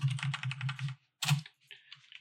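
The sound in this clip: Quick keystrokes on a computer keyboard while notes are typed: a steady run of clicks for about a second, a pause, a short second burst, then fainter scattered taps.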